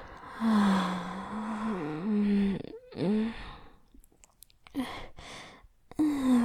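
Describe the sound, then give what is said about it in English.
A big gasping inhale during a countdown breathing exercise in a workout. Loud, breathy rushes come in short bursts after a long, wavering voiced sound. “Last exhale. And big inhale.”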